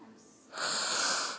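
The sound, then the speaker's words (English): A single long, sharp sniff taken directly from an open jar of menthol rub, a loud breathy hiss lasting under a second and heard alone. “That's the sound of me sniffing it. I've already rubbed it on my chest. But, you know, I like it better just to smell it directly.”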